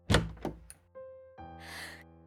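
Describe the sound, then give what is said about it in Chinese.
A bedroom door is flung open without warning, giving a few hard wooden thunks, then a sustained tonal ring and a brighter rushing noise that carries to the end. “卧室门冷不丁地被人打开，他的姐姐白佳佳探了半个身子进来。”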